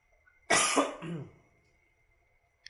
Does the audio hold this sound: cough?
yes

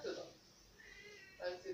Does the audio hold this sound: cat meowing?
yes

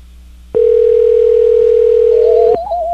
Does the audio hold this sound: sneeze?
no

